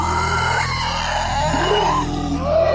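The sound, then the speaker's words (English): Screeches and roar-like cries from a creature approaching through woods in a tabletop role-playing game scene; wavering, sliding cries rise and fall over a continuous droning rumble, with no talk. “you start to hear the sounds, the screeches and roars”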